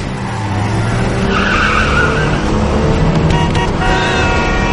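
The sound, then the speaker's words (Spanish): A car engine races and tires squeal as a car speeds along a sidewalk during a chase through heavy city traffic in a crime thriller film. The engine roar stays loud and continuous, with squealing tires throughout. “Paolo se cuela. Sube a la acera y conduce a toda velocidad.”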